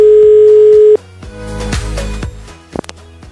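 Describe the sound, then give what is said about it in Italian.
A telephone call being dialled: a loud, steady dial tone holds for about a second, then cuts off into a mix of clicks and background sound as the call is placed. “E proviamo a chiamare Samantha, vediamo se ci risponde.”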